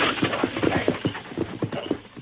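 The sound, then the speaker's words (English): Horses' hooves clop in a steady, rhythmic run of many hoofbeats as they pull a wagon backing up to a door, loud and clear with no voices over them. “Now keep them horses quiet. Back that wagon up here to the door.”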